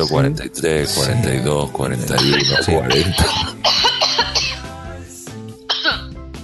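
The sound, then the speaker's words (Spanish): Coughing breaks out amid lively talk, with a few sharp, rough bursts standing out over overlapping voices. “¿Salud? Esa tos te quiere decir algo”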